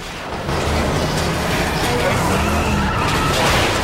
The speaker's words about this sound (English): The torch begins driving more and more erratically, trying to throw Jake from the side of the ambulance.